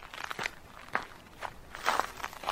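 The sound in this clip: Footsteps of a morning jog at a local sports oval, a few quiet, crunchy steps in an uneven rhythm over soft background noise.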